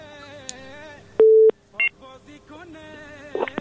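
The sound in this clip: Telephone tones as a phone line connects the next caller: a loud, steady tone held for a moment, then a short higher beep, with a voice around the tones.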